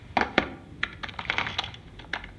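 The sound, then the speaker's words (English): Fingers type on a laptop keyboard while walking, producing quick, irregular clacking keystrokes, a few louder taps near the start and then a looser patter of lighter clicks, with no voices. “Why are you typing on a laptop whilst walking?”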